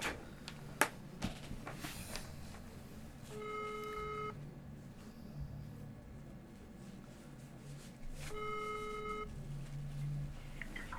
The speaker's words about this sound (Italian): è partita la chiamata, sì, allora ce la facciamo penso